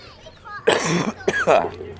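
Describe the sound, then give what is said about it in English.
A person coughs a few harsh, raspy times in quick succession during baseball play-by-play commentary, with short loud bursts separated by brief pauses. “Pardon the cough, folks.”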